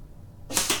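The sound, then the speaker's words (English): A dart thrown from 5 meters strikes a 3 cm target: after a near-silent lead-in, a short sharp burst of impact noise lands, with a second quick burst close behind. “So now let's try this more difficult shot. A 3 centimeter target from 5 meters away. 5 darts. Here we go.”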